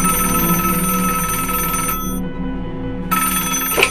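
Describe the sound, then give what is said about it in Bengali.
Landline telephone ringing, a loud trilling ring that stops briefly and then starts again, with no talk. “ঠিক সে সময় তার ল্যান্ডলাইনটা বেজে উঠল।”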